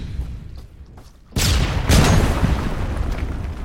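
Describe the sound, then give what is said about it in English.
Mills bomb hand grenade exploding in a sudden loud blast that cuts through low background noise, followed moments later by a second, stronger burst and a sustained rumbling roar. “Give me a couple of Mills bombs. Who's got the Mills bombs?”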